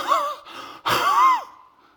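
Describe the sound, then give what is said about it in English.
A voice imitates players gasping for breath after running suicide sprints at basketball practice. Two loud, rasping, strained breaths follow one another, the second fading into a drawn-out exhale. “The kids would run suicide and they'd be gasping for breath.”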